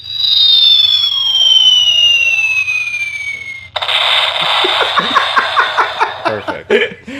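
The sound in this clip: A falling-bomb sound effect: a long whistle glides steadily downward in pitch, then breaks into a loud, crackling explosion that rumbles and pops for several seconds, over a faint constant low hum.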